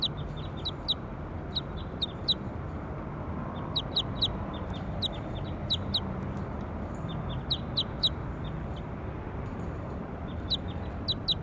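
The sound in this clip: Bird calls ring out as many short, high chirps, often in quick pairs or triplets, repeating irregularly over a steady low rumble of background noise.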